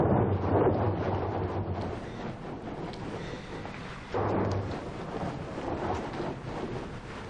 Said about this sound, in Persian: بارونه ولی من میرم.